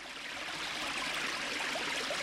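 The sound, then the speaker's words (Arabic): A river flowing past a village gives a constant rushing, hissing wash of water that holds steady without breaks. “لأن نهرا رائعا يمر من قريتهم، ولأن كثيرا من الطيور تأتي في فصلي الربيع والصيف تتمشى على ضفتيه.”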